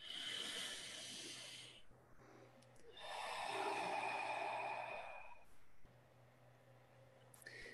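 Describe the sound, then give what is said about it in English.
Slow, deep human breathing: a long, breathy, hissing inhale and exhale, with a shorter breath before it and a quieter one after, in a calm, otherwise quiet setting. “Let's just take a, a nice deep breath, and all the listeners can just”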